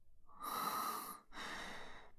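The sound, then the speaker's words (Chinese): A deep breath, heard as two long, soft, breathy rushes separated by a short pause, with no voices. “他深呼吸，过了一会儿恢复如常后”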